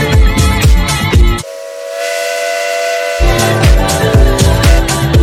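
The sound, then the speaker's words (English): Steam train whistle sounding one long, steady blast of about two seconds, set between stretches of upbeat music that stops for the blast and resumes right after. “Lucky Train. Choo-choo.”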